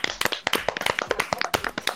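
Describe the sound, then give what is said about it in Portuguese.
A few people clap their hands, giving many sharp, crisp claps in a quick, uneven rhythm with no voices in between. “Vamos bater palma?”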